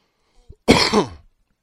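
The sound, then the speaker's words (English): A single short, harsh cough, like a throat being cleared, from someone who has had a cough for three days. It is one loud burst after a faint breath. “excuse me, I've had this cough the last 3 days.”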